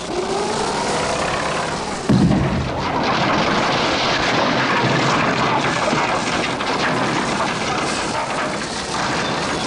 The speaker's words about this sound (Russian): Через открытое окно машины мужчина печально смотрит на то, как чугунная баба и ковш экскаватора крушат старое здание.